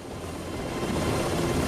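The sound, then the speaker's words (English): A helicopter descends through drifting yellow smoke toward tall grass, its rotor downdraft flattening the greenery. A low, steady rumble holds fairly quietly throughout and swells slightly toward the end. “One of the helicopters slowly makes its descent through the drifting yellow smoke. The surrounding greenery ripples from its rotor blades downdraft.”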